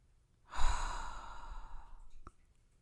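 A slow, deep breath during guided breathing with prayer: one long, airy rush of air that swells quickly, holds steady for over a second, then stops.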